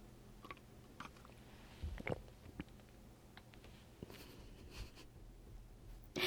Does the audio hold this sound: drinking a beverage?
yes